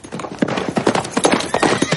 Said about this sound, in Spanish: Mira hacia el camino. Otro jinete se acerca.